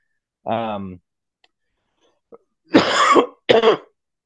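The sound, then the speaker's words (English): Coughing and throat clearing from someone feeling under the weather: a short voiced grunt, a few faint clicks, then two loud harsh rasping bursts close together near the end. “whenever I hear a cough coming on, I'll try and mute. Here we are, 3 minutes in.”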